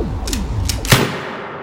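Rifle gunshots, a few sharp cracks with the last one the loudest, set over sweeping, falling electronic tones and a low rumbling bed.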